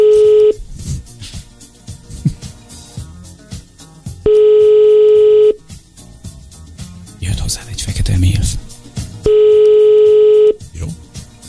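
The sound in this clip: Telephone call tones while placing a call: three long, steady, mid-pitched tones spaced several seconds apart, with talk and clattering noise in the gaps.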